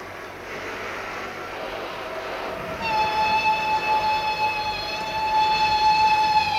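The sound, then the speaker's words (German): A locomotive whistle sounds a long, steady, tonal blast over the continuous low rumble of a train. The rumble plays alone for a few seconds before the whistle starts, and the whistle then holds to the end. “Die Lokomotive mahnte ungeduldig.”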